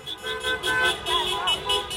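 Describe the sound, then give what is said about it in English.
Car horns honk repeatedly during a street celebration in downtown Los Angeles, with short toots of differing pitch overlapping in an uneven rhythm and voices faintly beneath. “That's the sound of people celebrating in downtown LA on Saturday morning”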